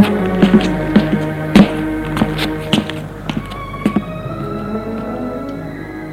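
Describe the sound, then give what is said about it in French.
Knocking on the concierge's lodge door in an apartment building with a marble staircase: a few sharp, hard raps come in short clusters, standing out clearly over a steady tonal background. “Escalier de marbre. Frappe à la loge de la concierge.”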